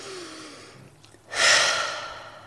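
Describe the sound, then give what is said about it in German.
Deep breath in and out during a guided relaxation exercise: a faint, soft airy stretch, then a louder breathy whoosh that swells and slowly fades, alone. “Und atme nochmal tief ein und aus.”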